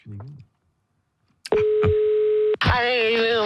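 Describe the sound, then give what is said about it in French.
A telephone call being dialed: a short blip, then a steady electronic tone, then a brighter, richer phone tone that runs to the end, with no talk. “C'est gagné, j'appelle Cunégonde.”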